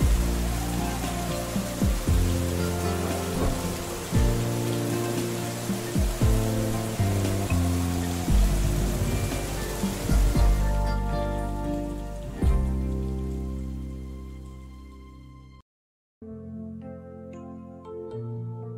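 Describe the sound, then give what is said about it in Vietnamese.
Steady rain falling, a dense continuous hiss mixed with background music, thinning out after about ten seconds and briefly cutting off before the music continues. “Kéo cao cổ áo, tôi lầm lũi đi trong mưa về nhà mình. Nước mưa ướt sũng cả mái tóc và thấm lạnh cả thân tôi.”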